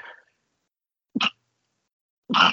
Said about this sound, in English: sorry about that. I sneezed on air.